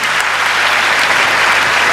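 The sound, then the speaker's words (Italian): Loud, dense applause from many hands, a continuous wash of clapping that stays even throughout the brief stretch. “Cole Turner, che facciamogli un applauso”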